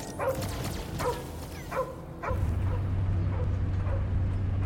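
A dog barks in a series of sharp, harmonic yaps. The first few barks are clear and evenly spaced, and later ones turn fainter as a steady low hum comes in midway and runs to the end.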